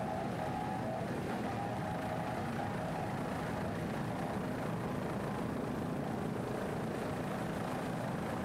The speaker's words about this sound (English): Great throttling there by Juan Santiago, the throttle man.